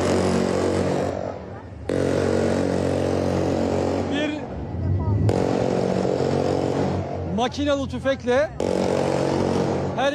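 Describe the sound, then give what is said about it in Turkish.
Loud, steady engine roar from two assault boats carrying special forces commandos arriving for a hostage rescue operation, a continuous low drone running under a man's voice throughout. “SAT komandolarını taşıyan iki atak bot alana geliyor. Şu anda sesi duyabiliyorsunuz.”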